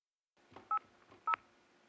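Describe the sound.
Telephone keypad tones as a number is dialed: two short, clear electronic beeps about half a second apart, with faint soft clicks around them and no voices.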